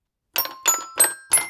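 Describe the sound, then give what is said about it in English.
Toy piano notes ring out, four bright, chiming strikes in an even rhythm after a brief silence, each with a quick attack and a short, tinkling decay. “That was the sound of my toy piano”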